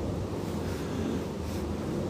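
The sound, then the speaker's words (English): Wind moving through trees, the leaves rustling and brushing against each other in a steady, broad hiss that stays fairly even throughout, with no voices. “So I'm also hearing some wind in the trees. I guess I'm hearing the leaves hitting each other.”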